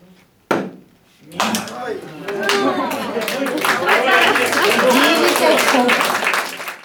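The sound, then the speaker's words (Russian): Darts adapted for blind athletes: a sharp knock, then after a short pause a few more knocks lead into a dense, sustained clattering, clapping-like noise, with voices mixed in. “Внимание, правильный ответ. Вы только что слышали дартс, адаптированный для незрячих спортсменов.”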